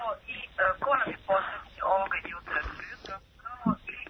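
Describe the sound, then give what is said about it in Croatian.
A radio plays in the background of a caller's phone line on a morning call-in show. It comes through as muffled, narrowband voices that run steadily for about four seconds. “Halo, samo utišajte radio, molim vas.”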